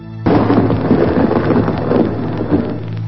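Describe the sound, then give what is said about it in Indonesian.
Rain begins abruptly and falls heavily, ending a long drought. It makes a dense, continuous hiss with a low rumble and holds at a loud, even level throughout. “Beberapa saat setelah itu, hujan pun turun, mengakhiri kemarau yang berkepanjangan.”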